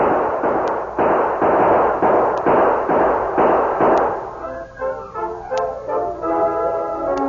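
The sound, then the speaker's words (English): Gunfire in a Western radio drama during a fight with a masked outlaw: a loud, dense volley of rapid cracking shots for about four seconds, after which the shooting thins out into a quieter, more tonal background. “Gun those hombres! Use your guns, men!”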